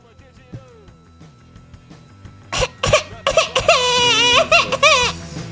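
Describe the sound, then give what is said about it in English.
A person imitates a crying baby with a few soft whimpers at first, then loud, wavering wails and sobbing bursts that build and hold near the end. “You want to do a baby voice for us? Do a little baby noise.”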